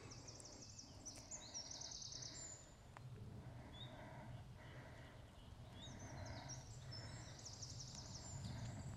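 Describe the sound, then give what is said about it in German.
A Eurasian wren sings along the Buchensteig trail in Kalkalpen National Park, Austria, in bursts of rapid, high, rattling trills, alone above a steady low background hiss. “Das ist der Zaunkönig. Einer der kleinsten Vögel, die es bei uns gibt, aber mit der lautesten Stimme.”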